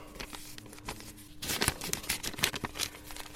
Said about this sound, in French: Ils sont plus grands, donc il faut les plier en plus petit.